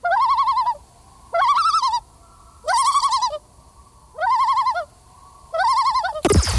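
A bird's tremolo call sounds in five loud, quavering phrases of rapidly pulsing notes, each wavering up and down in pitch and spaced by short gaps. A brief noisy burst follows at the end, with no voices.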